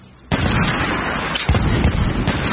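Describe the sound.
Modern rifle gunfire rings out in hilly terrain: a sudden sharp report, then a loud, sustained, rolling blast with another sharp crack midway and a few smaller pops near the end.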